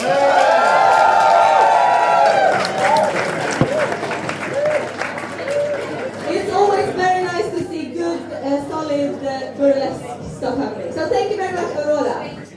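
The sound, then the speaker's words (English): Audience applause at a burlesque event: dense, loud clapping fills the first half, then softer scattered clapping continues while people talk over it. “So give her a warm applause.”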